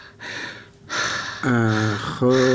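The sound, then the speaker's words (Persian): A patient takes deep breaths during a medical examination: a few long, breathy inhales and exhales, followed by short voiced sounds. “تو پیران تپلن کو، نفسای عمیق عمیق بکش. خو برو نفس و یک کم دیگه عمیق‌تر.”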